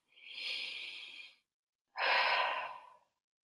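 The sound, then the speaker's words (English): A deep breath is taken slowly and audibly, then let out in a longer, fuller exhale. The two breaths are separated by a short pause and sound quiet and alone. “Take a deep breath.”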